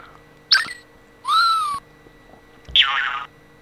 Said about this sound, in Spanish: Muelle. Ahí se reconoce el muelle.